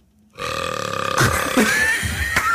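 A long, loud burp rumbles on for about two seconds, with a gravelly, buzzing tone and a wavering pitch.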